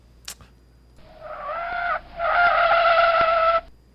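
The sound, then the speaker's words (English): Car tires squeal as a car skids off the road, heard as two tonal screeching bursts, the second louder and longer than the first. “I was like, what's that noise? He's skidding off the road.”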